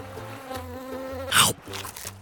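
Insects buzz in a steady, droning hum with a slightly wavering tone that holds throughout, broken once near the end by a short, loud hissy burst.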